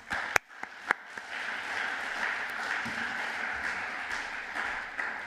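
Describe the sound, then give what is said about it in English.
A church audience gives soft applause to welcome a visiting pastor. A few sharp isolated claps come first, then the clapping settles into a quiet, steady patter. “So give him a warm welcome.”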